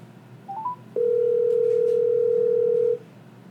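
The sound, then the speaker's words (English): Telephone dial tone: a few short rising beeps, then a loud, steady unbroken tone held for about two seconds before it cuts off. “I'm having a technical issue, and I'm going to dial you right back.”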